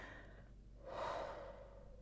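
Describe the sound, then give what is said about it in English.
A person slowly drawing a deep breath, a single soft, airy swell that rises around the middle and eases off, faint and alone without speech. “Everybody take a deep breath. I know I need one.”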